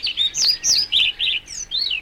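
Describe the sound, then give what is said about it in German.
European pied flycatcher calling: a rapid series of short, high, bright chirps repeated at an even pace, each note sliding slightly in pitch, alone against faint background noise. “Der Trauerschnäpper.”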